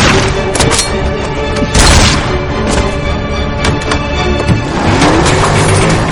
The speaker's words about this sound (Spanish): Rey se lo lleva por delante con el coche, frente a la ventanilla lateral y saca la escopeta.